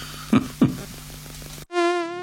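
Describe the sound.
Mosquito buzzing: a steady, high, whining drone cuts in abruptly after a short noisy stretch with two soft thumps, and it continues alone to the end.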